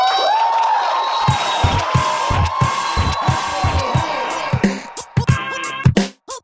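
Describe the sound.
An audience cheers a comedian's introduction with a sustained crowd roar and a long whoop, broken by a run of dull thumps and ending in a few sharp bursts.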